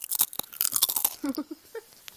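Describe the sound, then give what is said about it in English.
Chips being eaten, with many crisp, sharp crunches followed by softer chewing that grows sparser toward the end, alone without talk. “We're going to keep eating chips, just in case you're wondering.”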